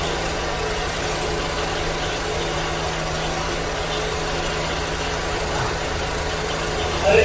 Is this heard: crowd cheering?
no